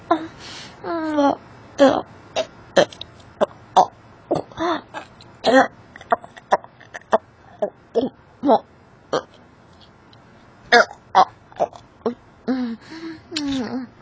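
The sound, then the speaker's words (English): Gagging, heard as many short throaty, choking bursts and strained vocal sounds in an irregular rhythm, separated by brief pauses and varying in loudness. “It's not even halfway through. I'm already gagging.”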